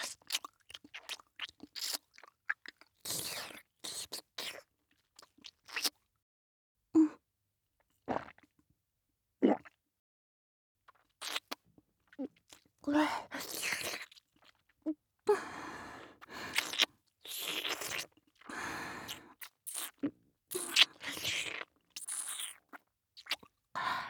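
Crunching and chewing from someone eating, in many short, irregular bursts separated by quiet gaps, with a few breathy exhalations and no talk.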